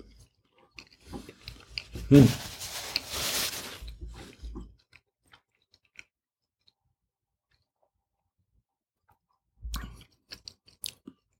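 Someone chews spaghetti, making soft, wet mouth sounds in a busy stretch of quiet chewing. A short, faint burst of chewing comes later, after a long silence.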